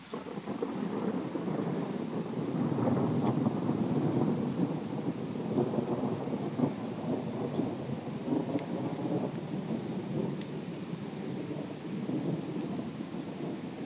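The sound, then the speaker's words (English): Thunder echoing in the moments before a storm hits: a long, low, continuous rumble that swells and lingers for about fourteen seconds over a soft rain-like hiss, with no talk. “It's those moments before the storm hit, when the animals are preparing, the dogs are barking, the thunder echoes.”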